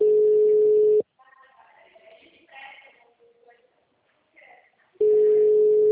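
Telephone call-progress tone on an unanswered call: a steady low tone lasts about a second, then a pause of roughly four seconds with faint scattered sounds, then the same tone returns.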